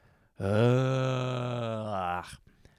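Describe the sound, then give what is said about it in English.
A person groaning: one drawn-out, low voiced groan of about two seconds, steady and loud, ending with a short breathy release. “emitted a groan. Because it's coming out of my mouth. The groan is coming out of my mouth. What makes me groan?”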